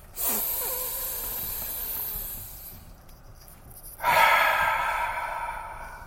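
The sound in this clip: Deep breaths during a guided breathing exercise: two long, airy, rushing breath sounds with a short quieter gap between them. The second breath is louder and more forceful than the first.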